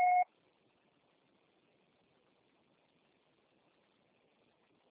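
A single short electronic voicemail beep before a message is recorded, sounding once at the very start and then giving way to near silence with faint line hiss.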